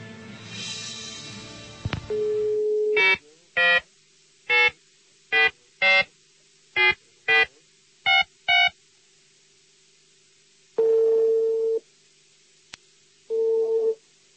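Telephone line tones while a call connects: a noisy steady tone, then a run of short dialing beeps in uneven rhythm, followed by two longer ringing tones separated by a pause.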